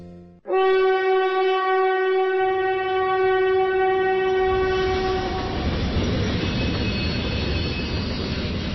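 China-Europe Railway Express freight train, a loud, steady horn blast holding for several seconds before giving way to the rumbling clatter of rolling wagons.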